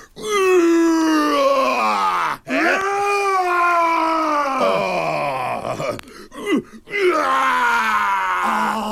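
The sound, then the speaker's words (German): A human voice imitates a roar with a few loud, drawn-out groaning roars. They swell and waver in pitch, separated by brief breaths. “Oh, das ist ein schönes Brüllen.”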